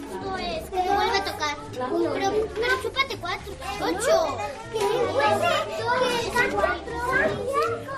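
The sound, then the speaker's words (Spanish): Lively chatter of a classroom full of children in Fuentenava de Jábaga, a small village near Cuenca: many overlapping high voices and calls that keep up steadily from start to end. “Y es que ese maravilloso ruido, el de una clase repleta de niños, ha regresado al pueblo 48 años después.”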